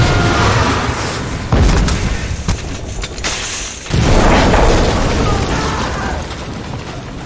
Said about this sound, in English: Enemy contact! Get into position! That was our command headquarters, you idiot! They got us! They blew up HQ!